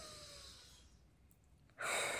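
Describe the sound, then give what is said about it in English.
Deep breath in during a guided calming breathing exercise: a soft, airy rush of breath fades to near silence, then a louder, fuller breathy inhale begins near the end. “I just want you to take a nice deep breath in.”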